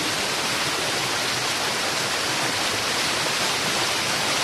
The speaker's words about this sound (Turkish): Onur'la beraber ben suyun sesini de dinletmek istiyorum size. Çünkü çok yoğun bir şekilde geliyor.